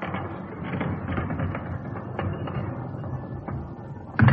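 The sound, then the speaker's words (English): Bank vault bars open at the press of a button once the time lock is off: a steady mechanical rumbling whirr that ends in a heavier clunk. “Well, as the time lock is off, we just press this button.”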